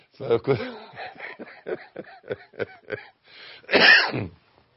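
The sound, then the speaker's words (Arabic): Someone coughs: after a run of short, speech-like sounds, one loud, harsh, breathy burst stands out near the end. “انا بكح.”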